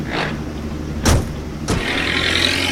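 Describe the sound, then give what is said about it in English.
A car drives away: two sharp thuds, like doors shutting, then a steady engine rumble and hiss that carries on to the end. “Men in white suits get into a car and drive away.”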